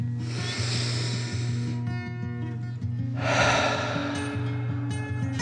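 A slow, deep breath is drawn in and let out in two long, airy swells over soft, steady background music, part of a calming guided relaxation for children.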